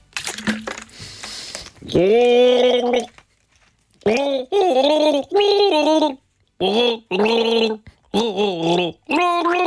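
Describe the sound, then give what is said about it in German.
A person gargling a pop song's melody with a mouthful of water, opening with a noisy bubbling burst, then several loud gurgled, tuneful phrases separated by short pauses. “Ich gurgle Ihnen jetzt einen Song vor und Sie sagen mir mal, um welches One-Hit-Wonder es sich hierbei handelt.”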